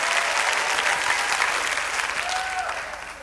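A church audience applauds, a dense, steady patter of many clapping hands that tapers slightly toward the end.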